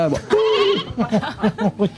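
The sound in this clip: A person imitates a sheep bleating, starting with a drawn-out, wavering nasal bleat and following it with several short, rapid pulsed bleats.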